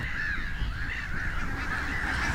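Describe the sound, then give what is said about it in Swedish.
Black-headed gulls call from a large colony of thousands, a dense, continuous chorus of overlapping harsh, laughing cries that stays loud and unbroken throughout, with no voices. “för här är det tusentals skrattmåsar”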